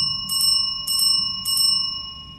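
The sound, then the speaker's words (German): A kitchen or reception bell rings rapidly as a sound effect in a tabletop role-playing game: three short, bright, trilled bursts of ringing over a sustained metallic tone. “hört ihr ein rasantes Klingeln. Als wäre es von einer Küchenglocke oder einer Rezeptionsklingel.”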